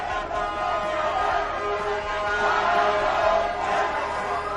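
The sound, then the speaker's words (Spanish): A street protest crowd in Quito, Ecuador, where indigenous groups rose against the removal of the fuel subsidy, makes a steady, dense roar of many voices shouting at once. “Ese es el sonido de esas protestas”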